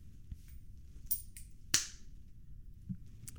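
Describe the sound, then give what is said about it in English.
A coin flicked for a toss gives one sharp, bright click, with a few fainter ticks before and after it over a low, steady background hum. “So we're going to do the coin toss. Heads, we're going high. Tails, we're going low.”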